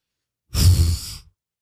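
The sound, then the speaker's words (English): A queef noise sound effect: a single short, breathy burst under a second long, an airy hiss with a low flutter beneath it, heard alone. “Okay, I just thought maybe you were getting ready to do it you're exhaling, but that was the first queef. It's got an exhale quality.”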